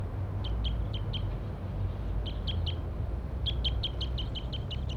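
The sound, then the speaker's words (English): A wild male bird calls in three bursts of short, high, sharp chirps, each burst a quick run of repeated notes, over a steady low rumble. “pointed at the wild birds now. That's him. One of the wild males.”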